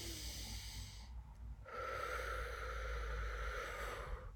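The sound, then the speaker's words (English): A deep breath drawn at the start of a guided prayer, a faint, slow, airy inhale heard alone, building in the second half after a brief quieter gap. “I'm going to begin with a deep breath.”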